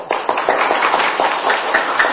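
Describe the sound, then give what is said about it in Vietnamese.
Audience applause at a Buddhist monk's dharma talk, a crowd clapping in a fairly even rhythm of quick, loud claps that hold steady from start to finish. “Cái anh ta vỗ tay quá trời, quý vị vỗ tay một cái luôn đi.”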